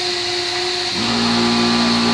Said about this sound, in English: Sorry about the noise, guys. Compressor's going on.